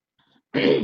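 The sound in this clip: Throat clearing from someone with something caught in the throat: one loud, rough, raspy burst that follows a few faint small noises, heard alone without talk.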